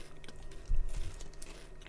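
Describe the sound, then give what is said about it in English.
Chewing and biting of a soft nut snack bar, with a few moist, crunchy bursts over a steady low hiss and no talk. “They are what? Delicious. Even the coconut one is unreal. There we go. Try it live on the podcast. Is this now an ASMR channel?”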